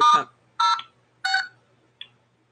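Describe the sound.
Telephone keypad tones as someone presses buttons while trying to mute a phone: four separate beeps with short gaps. The first three are similar in length and the last is brief and fainter.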